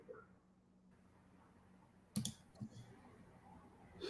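Computer mouse clicks while a banner is being created: a few faint, sharp clicks, with one clearer click near the middle and softer ones after, against quiet room noise.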